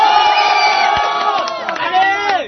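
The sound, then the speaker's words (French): Crowd cheering and whooping at a celebration of exam results: a loud, sustained mass of shouting voices with rising and falling cries, and no clearly separate clapping. “Donc applaudissez pour Omega.”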